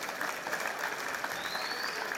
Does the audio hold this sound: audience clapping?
yes